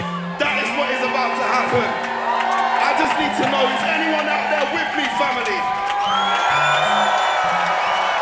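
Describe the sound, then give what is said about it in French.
An audience cheers and whoops at a live jazz festival concert in Marseille, a dense, continuous crowd roar mixed with applause and shouts, with a voice also audible through it. “On entend le public. Incroyable.”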